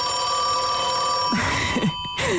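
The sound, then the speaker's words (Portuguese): A 1930 rotary dial telephone ringing: a continuous, loud metallic bell ring with a bright, steady tone that is briefly interrupted near the end before it rings on. “num vídeo de 10 minutos com sons de telefone ao longo dos últimos 150 anos. Este que ouvimos é de 1930, daqueles em que é preciso discar o número,”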